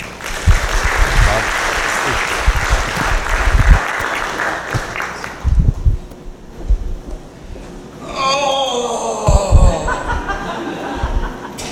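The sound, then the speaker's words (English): Audience applause welcomes a speaker at an Arizona Southern Baptist Convention gathering, loud sustained clapping that thins out, followed by a few chuckles and quieter talk. “So join me in welcoming Keith this morning.”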